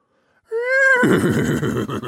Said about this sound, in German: fragte er das Pferd, das auf dem Acker graste.